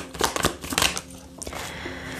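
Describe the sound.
Tarot cards are shuffled in quick, crisp bursts of riffling and slapping, followed by softer rustling as the deck is handled.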